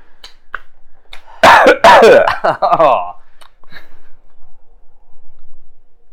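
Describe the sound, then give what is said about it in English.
A human voice imitates wind blowing through a hole, making a loud, breathy whoosh with wavering, sweeping pitch for about two seconds. Softer breathy puffs trail off afterward. “The sound of the wind blowing through the hole.”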